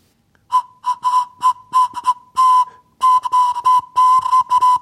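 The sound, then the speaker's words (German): A homemade carrot flute, a drilled carrot with a small carrot plug narrowing the hole, blown on its single mid-high whistling note in many short puffs of uneven length, with breathy air noise around each one. “Bis jetzt macht die Möhre nur einen einzigen Ton.”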